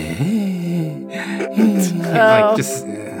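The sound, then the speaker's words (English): A voice imitates an old person wheezing, making a few strained, breathy vocal groans that rise and fall in pitch over about three seconds. “And then the one to the south, you hear a wheezing sound, like some old person going,”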